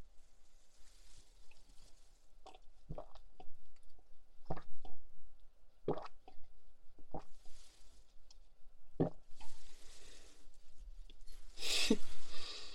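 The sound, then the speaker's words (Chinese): A dog drinking, lapping up its drink in a series of short, wet, splashy slurps at irregular intervals, with brief quiet gaps between the laps. “好啊，狗狗，给你喝吧。愣着干什么？不愿意我收回去了。”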